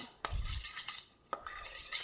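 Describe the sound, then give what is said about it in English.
A spoon stirs flour into a brown sugar batter in a bowl for Congo bars, with continuous scraping and mixing and two sharp knocks against the bowl standing out. “Now go back to your bowl of dry ingredients. And just pour that in here and mix that up. It's going to take a minute to get all that flour incorporated”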